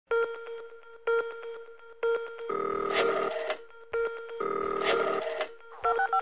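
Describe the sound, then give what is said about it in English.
Electronic telephone tones sound as a password is keyed into a voicemail system: short beeps alternate with two longer buzzing tones in a repeating pattern, ending in a quick pair of beeps. “Please dial your password and press pound.”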